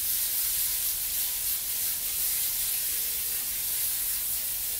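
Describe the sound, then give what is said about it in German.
A flammable liquid is sprayed from a nozzle for an ignition test, giving a continuous, even hiss of fine spray that stays loud and unbroken throughout, with no talk. “Und jetzt können wir mal den Versuch machen. Aber wir können jetzt das mal hier so in etwa besprühen.”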